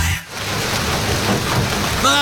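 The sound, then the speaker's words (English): Heavy rain pours down in a steady, dense hiss of countless drops, loud and unbroken across the whole stretch apart from a brief dip near the start. “March, the rains are here. When it finally rains, it pours.”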